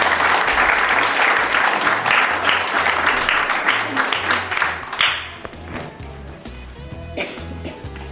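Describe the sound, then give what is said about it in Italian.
Audience applause in a classroom: lively clapping for about five seconds, then it thins out abruptly into a quieter stretch of scattered claps and faint voices. “Un altro applauso.”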